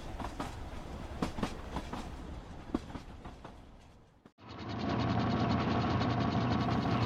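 Train on the tracks: dense rattling and clicking mechanical noise, then a brief dip and a loud, steady rumbling hum with a droning tone.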